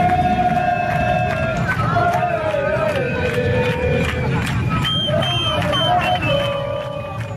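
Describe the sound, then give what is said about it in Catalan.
Crowd at FC Barcelona's celebration parade through the city streets: a dense, loud roar of many voices with sustained horn-like tones ringing above it throughout. “És la rua del Barça, que ahir passava pels carrers de la ciutat”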